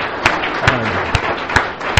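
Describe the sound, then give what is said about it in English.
Applause welcoming first-year members at an AA meeting, heard as five sharp, evenly spaced claps over a steady background hum. “could I see the hands of the people here in the first year? Right. Terrific. Thank you. Thank you. Welcome. Welcome. Welcome. Yeah. Let's give them a hand.”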